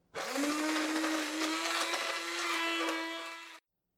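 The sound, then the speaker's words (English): Motorized whirring of a whisk mixing raspberries into a small batch of pancake batter: one steady, high buzzing drone lasting about three and a half seconds, then cutting off abruptly. “So I've got myself a punnet of raspberries here. I've only made quite a small bit of batter, so I'm going to put about half the punnet in for now. Let's whisk it up.”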